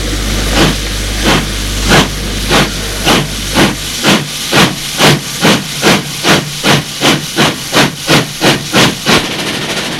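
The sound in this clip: A train pulls out of the station at Lyon with loud, rhythmic steam chuffs over continuous hissing. The many chuffs come closer together as it picks up speed, and an early low hum drops away partway through.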